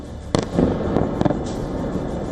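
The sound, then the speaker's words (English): Missile strikes exploding in a city district of Kyiv, with no interceptions: a few sharp, loud blasts punch through a constant low rumble, coming in quick succession. “In the Golosivsky district, four Russian missiles slammed into targets in less than a minute. There were no interceptions, no explosions in the sky, just impact after impact.”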